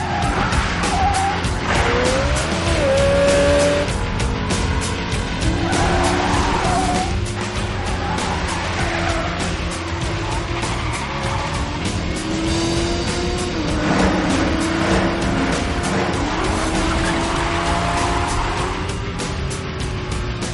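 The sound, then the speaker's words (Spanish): Engines roar and tires skid as a motorcycle chases a car around a warehouse. Loud, sustained engine noise carries repeated squeals and revving, and it stays intense from start to finish. “Una moto sale de la nave. Sigue a John alrededor de la nave.”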